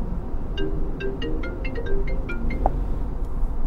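Phone ringtone of an incoming call inside a car: a quick melodic run of short, bright plucked notes playing over steady low road rumble, then fading out.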